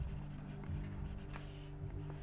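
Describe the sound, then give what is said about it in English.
Faint scratchy pen strokes as a name is written by hand during a Bible lesson, soft and quiet over a steady low hum. “Just believe me that I'm writing his name right here.”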